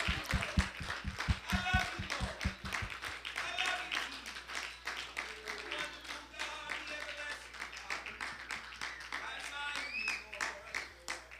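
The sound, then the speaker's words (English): A church audience claps hands in praise at an evening service. A run of steady rhythmic claps is heard for about three seconds, then voices carry on with scattered claps beneath them. “Can we clap our hands unto the Lord one more time?”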